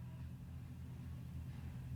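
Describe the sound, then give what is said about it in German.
A pallet truck drives around outside, heard as a low, steady rumble that holds at an even level for the whole stretch, with no clear starts or stops. “Es fährt draußen der Hubwagenfahrer rum.”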